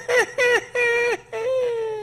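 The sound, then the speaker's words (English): A voice imitates a character's crying wail, giving four drawn-out sobbing cries separated by short gaps. The first three bend downward in pitch at their ends, and the last is longer and steadier. “You could hear the wailing, the sound that, you know, when you cry, that crying that's mm-hmm. from your soul”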